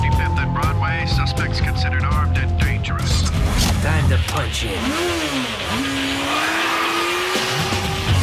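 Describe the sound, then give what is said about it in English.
A motorbike speeds off at night through deserted Manhattan streets, does a wheelie and accelerates round a corner: a loud, continuous engine roar whose revs rise and fall, with a voice talking over it. “speeds off into the night, blazing a trail down the gloomy, deserted streets. He does a wheelie, then accelerates round a corner.”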